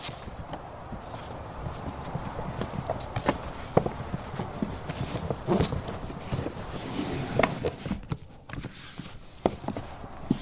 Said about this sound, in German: Warte, ich hab was gehört. Was denn? Verdammt, da kommt jemand die Treppe hinauf.